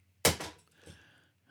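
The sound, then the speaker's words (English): A pop shield is disconnected and thrown to the floor: a loud, heavy thunk, then a second softer knock, followed by faint rattling and scraping that trails off. “That sound you can hear is a pop shield being disconnected”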